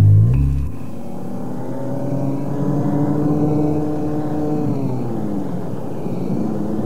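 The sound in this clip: A car driving fast on a country road: a steady, droning engine hum with layered harmonics that waver slightly in pitch, holding at a constant loudness throughout with no voices.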